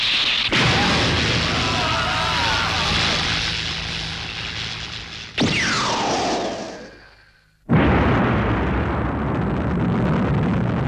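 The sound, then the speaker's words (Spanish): Laputa's ray weapon fires with explosions in the 1986 animated film Castle in the Sky: a loud, sustained roaring blast, then a whistling whoosh sweeping downward and fading to near silence, before another heavy roaring burst erupts. “Con el fin de celebrar solemnemente la resurrección de mi reino, os haré una pequeña demostración de su gran poder. ¡Sita! Ahora podréis admirar los rayos de la Puntug.”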